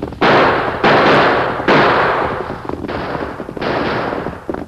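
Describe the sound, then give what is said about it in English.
Gunfire during a holdup, with two outlaws riding hard on horseback: a few long, loud bursts of rough, crackling noise follow one another with brief gaps, and no voices. “Use your guns, Tonto”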